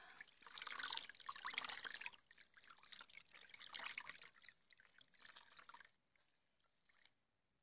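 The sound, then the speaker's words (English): Water splashes and trickles as a mother washes a child's legs. Steady wet sloshing comes in irregular bursts, then thins to a few faint drips near the end. “Mommy's just gonna wash you. Okay, now I'm gonna wash your legs.”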